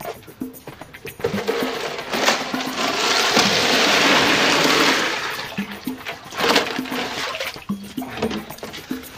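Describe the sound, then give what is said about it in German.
Ice is poured into an ice barrel: a loud, rushing, rattling cascade builds and holds for a few seconds, then gives way to softer clatter and knocks. “Pass auf, jetzt stehe ich hier schon mal an der Eistonne, aber es ist noch nicht viel Eis drin, aber dafür werde ich jetzt sorgen.”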